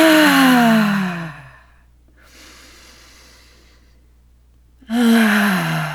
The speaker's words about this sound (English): So breath in. Exhale, let it open.